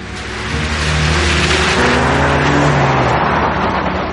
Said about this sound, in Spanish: El gigante rubio se marcha en su coche.